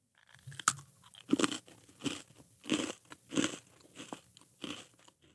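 A cream-filled cracker cookie with a slightly stale cracker is eaten in a series of crisp, crunchy chews that come in a steady rhythm, each crunch bright and distinct against near silence.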